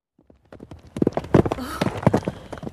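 A horse trots with rhythmic clip-clop hoofbeats that begin faint and grow louder, many steps in a steady beat.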